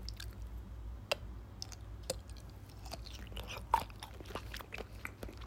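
Biting and chewing a sausage that was boiled and then lightly grilled: quiet, wet, squishy chewing broken by a few sharper, crisp bites through the casing, with no talking.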